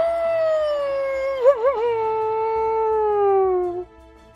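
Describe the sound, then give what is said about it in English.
A single drawn-out howl from a creature in a wooded ravine. The clear, tonal call wobbles briefly, then glides slowly downward and cuts off. “More of these shapes hurtle through the woods on either side. We find ourselves in a ravine, and the howling continues.”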